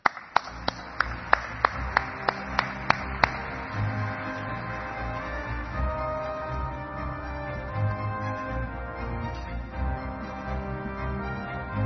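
Audience applause welcomes a panel to the stage: a handful of separate, crisp claps that quickly thicken into steady, fairly soft clapping that carries on throughout.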